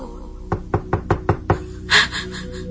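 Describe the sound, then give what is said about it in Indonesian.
Knuckles rap on a bedroom door: six quick, firm knocks in a fast, even run, followed by a brief rustle. “ada yang kembali mengetuk pintu kamarku ini.”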